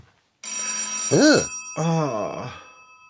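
A telephone rings in two bright bursts separated by a short gap. Each burst is a high, warbling electronic trill, fairly loud and clear, with no talk over it.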